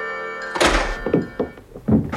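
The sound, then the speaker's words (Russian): A boot kicks a door open with a loud crashing thud. A few more heavy thumps follow at uneven intervals. “С грохотом распахнулась отброшенная сапогом Гирина дверь.”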